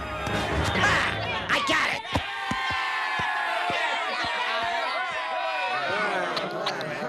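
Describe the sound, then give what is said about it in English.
An angry mob of locals bursts into a house in an animated cartoon scene, with loud crowd yelling over a string of sharp thuds and knocks from running feet and impacts, a constant roar throughout. “Hordes of angry locals burst into the house and snatch the bear from Maggie.”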